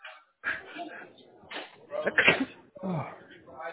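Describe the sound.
A sneeze bursts out during a phone call, a short sharp sound set among stretches of conversational speech.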